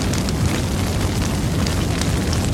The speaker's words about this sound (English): A fire pit is nearby.